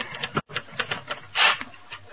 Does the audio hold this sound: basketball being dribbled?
no